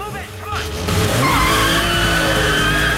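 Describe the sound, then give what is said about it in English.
Car tires screech and skid during a chase over a revving engine. The loud squeal swells in after a brief dip near the start and then holds steady to the end. “Another car arrives as Stan's getting to grips with the gears.”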